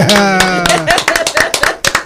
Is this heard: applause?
yes

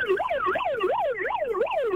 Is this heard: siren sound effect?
yes

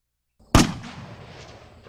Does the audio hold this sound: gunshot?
yes

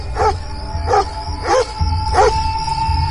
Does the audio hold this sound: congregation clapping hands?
no

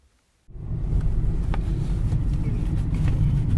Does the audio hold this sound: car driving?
yes

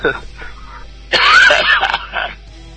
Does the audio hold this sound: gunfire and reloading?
no

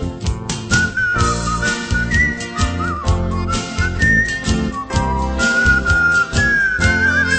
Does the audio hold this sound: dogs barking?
no

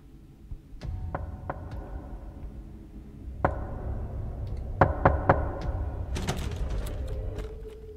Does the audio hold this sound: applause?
no

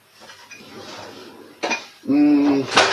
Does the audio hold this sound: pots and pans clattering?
yes

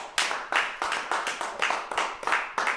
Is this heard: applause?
yes

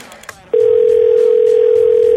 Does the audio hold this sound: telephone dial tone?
yes

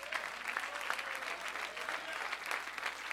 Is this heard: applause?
yes

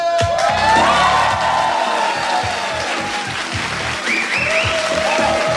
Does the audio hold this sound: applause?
yes

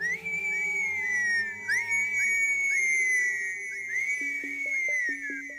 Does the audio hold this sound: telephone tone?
no

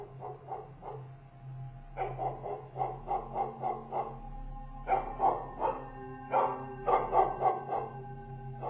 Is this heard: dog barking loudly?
yes

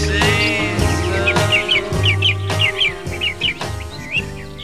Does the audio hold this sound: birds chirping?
yes

